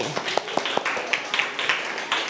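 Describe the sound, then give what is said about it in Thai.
A class of pupils applauds a classmate for answering well in a Thai primary lesson: sparse, irregular hand claps from a group, several sharp individual claps standing out over a soft background of clapping. “เก่งมากๆเลยปรบมือให้จิรวดี”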